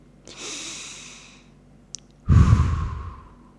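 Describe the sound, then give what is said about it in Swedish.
Deep breathing in a calm relaxation exercise: one slow, airy inhale, a brief click, then a louder, rushing exhale that trails off, with no talk. “Ta lite djupa andetag.”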